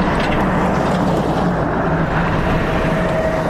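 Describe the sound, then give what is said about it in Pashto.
A four-wheel-drive aid vehicle grinds along a rough, potholed mountain road to Baghran district in Helmand, its engine and road rumble forming a loud, steady noise throughout. “د باغران ولسوالۍ ته پر غزیدلی کنډ او کپر سړک د روان هغه کومک لرونکي بایپور موټر ژغ دی چې اوس مهال مرکز لشکرګاه ښار ته د باغران ولسوالۍ څخه راورسېدلی.”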